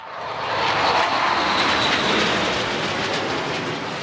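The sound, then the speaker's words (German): A Eurofighter combat jet taking off in Estonia: a loud, sustained jet-engine roar that swells over the first half second and then holds steady, heard alone. “Wenn ein Eurofighter startet, hält sich auch der Bundesverteidigungsminister die Ohren zu. Boris Pistorius schaut im Herbst bei einem Besuch in Estland dem Kampfjet kurz hinterher, wie er in den Himmel steigt.”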